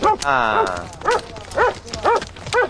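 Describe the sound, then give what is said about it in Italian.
A dog barks in a series of loud, evenly spaced barks, about five in a row, each a short tonal yelp at a steady rhythm. “Il cane che abbaia.”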